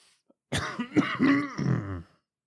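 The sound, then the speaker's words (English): One rough throat-clearing cough rises out of silence. It is a loud, voiced, gravelly burst lasting about a second and a half, with no talk around it. “there go some more editing of coughs.”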